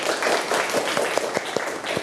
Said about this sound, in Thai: ปรบมือให้ดนยาหน่อย